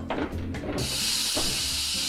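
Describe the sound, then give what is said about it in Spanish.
Steam hisses out as an oven door opens on a chicken that is almost done roasting. A low rumble comes first, then a loud, steady hiss starts abruptly and keeps going to the end. “¡Al abrir el horno!”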